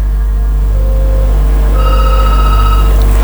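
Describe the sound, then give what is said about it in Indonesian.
A telephone rings for an incoming internet call. It sounds as a single bright, tonal ring burst lasting about a second, over a loud, steady low hum. “gangguan teknis untuk telepon WA. Kita ke penelpon lagi kalau begitu.”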